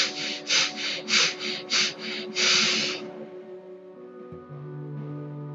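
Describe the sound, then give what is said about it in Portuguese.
Breath is released during a guided breathing exercise: a run of short, rhythmic, airy puffs leads into one longer, steady exhale, and soft sustained music plays underneath. “Solto o ar lentamente. mais uma vez.”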